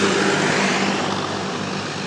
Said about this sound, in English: on a tractor run, and you can hear the noise, the roar of the engines,